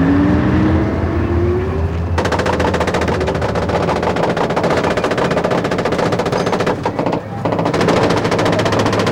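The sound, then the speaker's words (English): Loud, dense machine gun fire as Israeli soldiers' guns shoot rapid bursts into almost empty streets, following a lower rumbling opening, with a brief break near the end before the firing resumes. “The Israeli response was a blizzard of machine gun fire into the almost empty streets. Soldiers dismounted, covered by 8 machine guns firing rapid bursts.”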